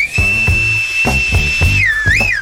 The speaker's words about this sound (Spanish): Vamos a hacer el chifleo.